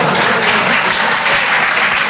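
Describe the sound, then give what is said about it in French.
An audience at a stand-up comedy show breaks into dense, continuous applause, with loud, even clapping sustained from start to finish. “Je sais pas pourquoi, à chaque fois que j'en parle, les gens m'applaudissent.”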